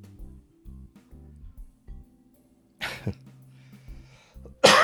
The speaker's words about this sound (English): I can't stop coughing